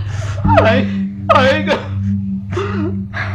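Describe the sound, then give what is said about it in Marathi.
A man cries, letting out a few drawn-out wailing, moaning sobs in separate bursts over a steady low background hum. “अरे आता रडून काय उपयोग बाबा”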